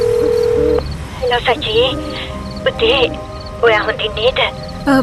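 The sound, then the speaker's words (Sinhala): A steady telephone tone, sounding for under a second as someone dials a number in a room, followed by people talking. “Sachi කාමරයට ඇවිත් number එකක් dial කරනවා.”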